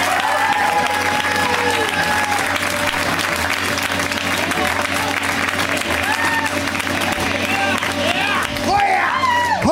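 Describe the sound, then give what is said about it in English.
Comedy show audience applauding and cheering as a comic is welcomed to the stage: steady, dense clapping fills the whole stretch at full loudness, with scattered whoops and shouting voices rising above it. “Let's hear it right now for MK Paulson. Give it up for MK.”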